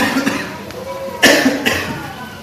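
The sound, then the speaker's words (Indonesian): A sharp, harsh cough bursts out partway through from someone with a lingering cough, louder than the soft, muffled vocal sounds around it. “ini masih batuk. Jadi saya bicara ini sambil nahan batuk.”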